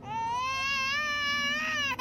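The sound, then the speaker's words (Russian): A baby cries in a sustained, high-pitched wail, sobbing steadily and fairly loud, then dips briefly right at the end. “Ребенок несколько раз всхлипнул и затих.”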